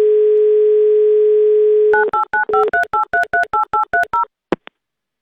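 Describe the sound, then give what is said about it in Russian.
A steady telephone dial tone while a call is being placed, followed by a quick run of many touch-tone dialing beeps and a short click at the end. “Давайте звонить.”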